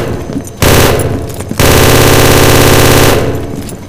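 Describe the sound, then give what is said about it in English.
Automatic gunfire exchanged with harbor personnel in two long, loud bursts of rapid, sustained shots, the second burst running unbroken for about a second and a half. “Shots fired. It's the harbor personnel. Return fire, Falcon.”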